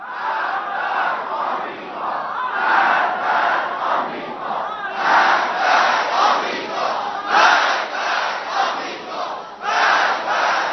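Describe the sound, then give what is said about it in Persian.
A large crowd shouting 'Death to America' in loud rhythmic unison, the slogan repeated in many waves of massed voices with no single speaker over it. “مردم میبینن، لذا با همه وجود فریاد میزنن مرگ بر امریکا،”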